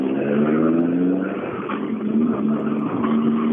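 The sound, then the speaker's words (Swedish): A car engine revving hard, a loud continuous roar whose tone climbs and settles in a few surges. “Ja, då var det hans bil i alla fall.”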